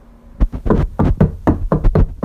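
Heavy knocking on a door: a long run of loud, rapid thuds in an uneven, insistent rhythm, with no talk.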